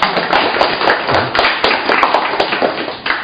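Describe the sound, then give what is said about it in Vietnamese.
An audience applauds with a dense, continuous round of clapping that is loud and sustained for the whole stretch. “Cho nên là một tràng hoa tay để chúng ta hoan hô tinh thần của các ông, các anh một chút, một tràng hoa tay cho anh chị em.”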